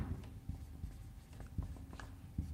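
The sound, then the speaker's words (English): A marker writes on a whiteboard in a quiet series of short, scratchy strokes that come in an uneven rhythm. “Sorry if I'm writing small, but I plan to get another whiteboard in the future, so we have dual whiteboards.”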